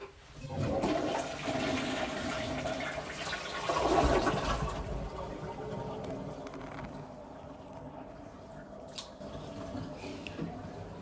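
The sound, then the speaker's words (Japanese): A toilet flushing: a loud rushing surge of water for about four seconds, then easing into a quieter gurgling refill with light drips as it trails off. “パンツあげます。流していきます。”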